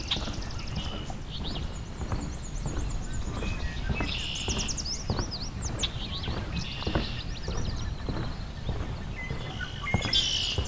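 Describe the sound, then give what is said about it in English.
Northern waterthrush song: several bright, high chirping phrases, loudest around the middle, set against a steady low clattering, thumping background throughout. “sounds like northern water thrush. It's nearby as well, so that's good.”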